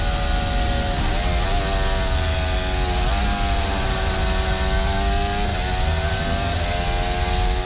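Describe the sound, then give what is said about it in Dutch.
Formula 1 car engine heard onboard through the Maggots and Becketts corners, the driver downshifting hard to feed the hybrid electric motor: a continuous loud, high-pitched engine howl broken by a few abrupt pitch drops as gears change. “Ja, heel opvallend wat je daar eigenlijk hoort bij Lando Norris aan boord. Dat hij heel erg hard aan het terugschakelen is in Maggots & Beckers.”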